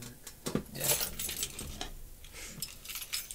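Keys jangling as a set of keys is grabbed, with a few bright metallic clinks and rattles bunched together, fairly quiet and with no talk.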